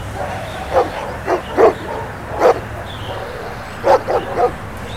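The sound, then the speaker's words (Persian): Dogs standing below people who have climbed up, barking persistently: a series of sharp, moderately loud barks in irregular clusters over a steady low hum. “سگ‌ها ولکن نبودند، همان پایین ایستاده بودند و مدام واق واق میکردند و برای بابک و امیر”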